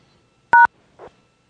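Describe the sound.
A single telephone keypad tone sounds as a caller starts entering a phone number on an automated account line. It is a short, bright two-note beep, followed by a faint brief blip.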